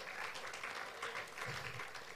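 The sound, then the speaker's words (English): A church audience gives a round of applause in praise, a faint, even wash of many hands clapping that holds steady without pause. “I think we need to give the Lord Jesus Christ a wonderful round of applause.”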